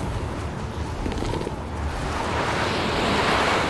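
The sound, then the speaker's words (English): Strong wind roaring in open air around a group shielding a child: a steady, full-bodied rushing noise that swells louder toward the end, with no voices. “Guys, we gotta get this kid out of the wind!”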